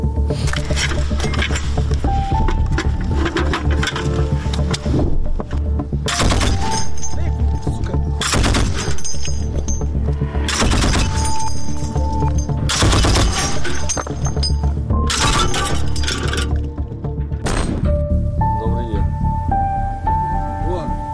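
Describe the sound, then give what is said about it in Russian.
Gunfire from an ongoing shooting near homes cracks out in loud, irregular bursts over a constant background rumble and steady tonal hum, with several sharp shots spread across the stretch. “О, вот примерно полчаса они стреляют”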